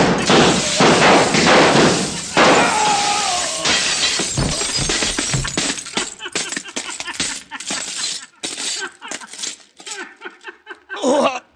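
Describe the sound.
Gunshots shattering funhouse mirrors at a carnival in a radio drama: many loud crashes of breaking glass mixed with thuds, dense at first, then thinning into scattered tinkling pieces.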